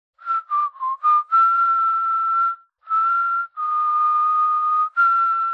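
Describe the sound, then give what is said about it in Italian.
Someone whistling a slow, melancholy tune alone: a few short, quick notes open it, then long sustained tones follow with brief pauses between phrases. “udì qualcuno che fischiettava un'arietta malinconica.”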